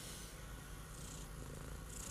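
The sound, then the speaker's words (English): A cat purrs in a faint, steady, low rumble that continues unbroken throughout, with no voices. “And of course, this damn cat,”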